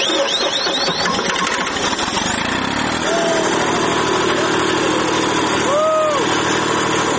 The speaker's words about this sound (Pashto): جنراتور چالانه سو، میدان رڼا سو